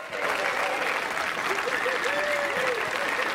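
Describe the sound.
A theatre audience applauds and cheers as a performer keeps taking her bows after the other two have left the stage. The clapping is loud and steady, with whoops and calls rising above it.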